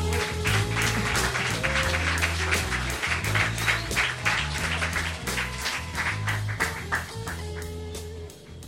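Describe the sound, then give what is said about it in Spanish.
Audience applause at a poetry night welcoming a guest writer: dense, continuous clapping that holds steady for about nine seconds and thins slightly at the end. “recibimos a Simón con un aplauso”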